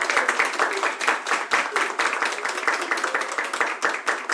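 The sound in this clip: An audience applauds a performer at the start of a show, with dense, steady clapping that holds at an even level throughout and no voices over it.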